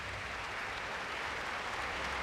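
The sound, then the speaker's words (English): Audience applause after a classical concert performance in Atlanta, a dense, steady wash of many hands clapping that stays even throughout without pause. “And the applause and smiles at the Woodruff Arts Center kept up until she sat down for an encore.”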